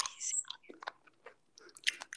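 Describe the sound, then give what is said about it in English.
Someone eats, with crisp bites and chewing. A few quiet, irregular crunches are separated by short pauses. “What are you eating? Not ASMR. Stop.”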